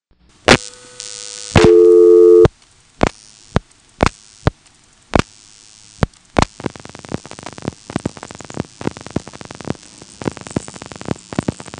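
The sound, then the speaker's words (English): Telephone trunk signaling while dialing and resetting: a few sharp isolated clicks, a short tone and then a steady buzzing tone, followed by more spaced clicks and then a long run of rapid clicking pulses. “After that, I'll reset the trunk with a long flash, and then dial something which goes to the local recording, then reset again, and get a busy signal and a ring.”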